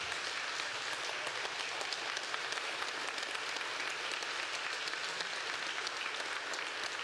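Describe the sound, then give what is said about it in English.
A church audience standing to applaud its young people, a faint but continuous, dense patter of many hands clapping at an even level. “And let's stand up, give them a hand clap.”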